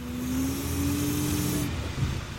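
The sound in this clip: A snow plow truck's engine drones steadily as the truck darts around a car and veers back toward the curb, with a sustained low hum and a faint tone that rises slightly over the first part.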